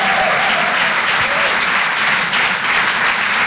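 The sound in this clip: Comedy club audience applause, a dense and loud burst of many hands clapping that stays steady for the whole stretch without breaking off.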